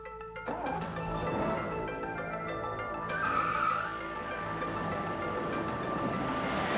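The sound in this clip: A Mercedes-Benz car speeds and skids, with tires squealing over a continuous rush of engine and road noise. The sound holds at a fairly even, moderate level throughout.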